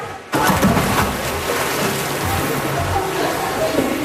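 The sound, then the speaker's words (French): A woman dives through a hoop into water, an abrupt loud splash followed by sustained bubbling and sloshing. “Voilà, elle vient de plonger au travers du cerceau.”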